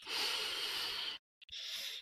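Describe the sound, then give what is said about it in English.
A long, soft, airy breath drawn in deeply during a guided relaxation exercise, followed after a brief pause by a second, shorter breath. “Deep breath in.”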